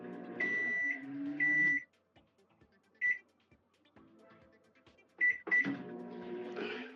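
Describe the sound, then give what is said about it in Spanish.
A kitchen oven starting up, sounding a few sharp, high electronic beeps spaced apart, with faint low running hum and small clicks in between. “Listo, está caminando nuestro horno.”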